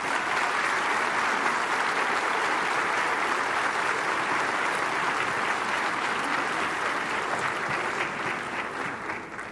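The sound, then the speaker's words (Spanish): Audience applause welcomes the general director at a symphony concert evening: a dense, continuous roar of clapping that stays even throughout and eases off slightly at the end. “quisiera que reciban con un caluroso aplauso a la directora general María Victoria Sosa, quien estará compartiendo con ustedes unas palabras”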